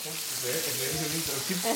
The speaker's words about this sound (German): Ja, meine Mutter brät Schnitzel.